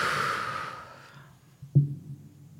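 A deep, tense breath: a breathy hiss fades away over about a second, then after a short pause comes a brief, low, snort-like intake.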